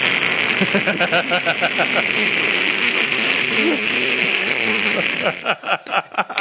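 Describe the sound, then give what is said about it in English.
A voice imitates a dense swarm of buzzing insects, not cicadas, said to fill every tree in Dubrovnik. It holds a sustained, droning buzz for about five seconds, then breaks into choppier bursts. “They have these bugs that sound, they're not cicadas, but it's just like, it's a million predators all at once just going”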